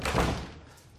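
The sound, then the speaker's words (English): A door closes behind two people as they step inside: a single dull, muffled thud with a soft fading tail. “She steps inside and he closes the door behind them.”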